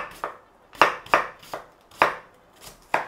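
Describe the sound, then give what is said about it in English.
A knife slices onions for a curry, six crisp chopping strikes in an uneven rhythm, each a short sharp tap against the board with quiet gaps between. “We want to slice the onions down. Okay? We want slices of onion in our curry.”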